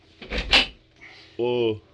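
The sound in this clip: A door being opened, heard as a brief rattling, scraping burst, followed after a short pause by a single brief voiced sound.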